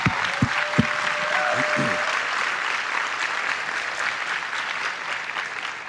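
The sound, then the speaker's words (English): Audience applause at a gathering: dense, steady clapping from many hands that holds loud and even for about six seconds, with a few sharper individual claps standing out at the start. “And I congratulate you for it. Give yourselves a hand.”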